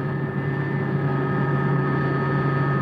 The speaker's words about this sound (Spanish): Se produce la señal de ok y en este momento nos elevamos sobre la pista de aterrizaje